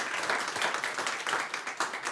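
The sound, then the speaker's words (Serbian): A studio audience applauds at a lively evening entertainment show, with dense, steady clapping that holds at an even level throughout. “evo, neka sudi vaš aplauz ovoj večerašnjoj emisiji”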